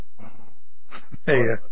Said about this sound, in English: Our studio dog's in here growling and whatnot.